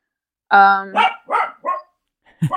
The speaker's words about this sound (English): my dog. Done with the bone. Yeah, she's taking a break. She's taking a barking break.